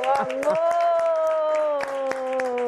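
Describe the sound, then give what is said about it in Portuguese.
A studio audience applauds with scattered, irregular claps while a loud, sustained voice holds one long steady note over the clapping. “Vocês que estão aqui no estúdio, vamos aplaudir por voltar.”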